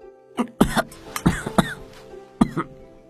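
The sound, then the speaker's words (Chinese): Someone who has choked on porridge coughs in a rapid series of harsh, explosive bursts that come in uneven clusters with short pauses between them. “正喝粥的公孙被粥呛到了，一个劲儿咳嗽。”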